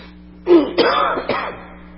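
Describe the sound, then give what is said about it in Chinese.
A person recovering from a cold coughs during a church sermon: about three short, rasping, throat-clearing bursts in quick succession, alone without speech. “抱歉啊，老是咳嗽，感冒是好了”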